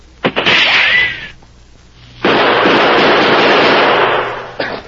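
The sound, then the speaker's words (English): Gunshots ring out in a gunfight near a cliff and boulder: sharp loud cracks, each trailing into a long harsh burst of noise, with a quieter gap between them and a short final crack. “I'm going to throw some shots out there and take a quick look while my bullets keep their heads down.”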